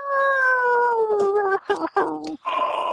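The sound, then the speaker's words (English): A human voice imitates dogs howling: one long, loud, tonal howl whose pitch slowly falls, followed by a few shorter, broken howl-like cries. “starts howling. Dogs all around the park start,”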